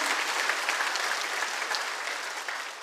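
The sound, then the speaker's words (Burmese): Congregation clapping their hands in praise during a Sunday church service, a dense, steady wash of applause that holds at an even level throughout with no talk over it. “ဟာလေလုယာဟာလေလုယာဟာလေလုယာလက်ခုပ်တီးလက်ဖျားကိုချီးမွမ်းရအောင်အာမင်”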